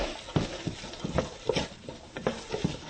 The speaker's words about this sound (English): Just stir this.